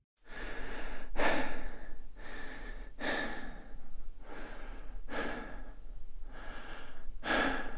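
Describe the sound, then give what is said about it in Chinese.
Someone takes slow, deep breaths to calm down. The breathing is audible and breathy, with several long inhales and exhales in a steady rhythm, each breath swelling and fading. “我记得上次看到书中有提到，这种时候就要先做深呼吸。”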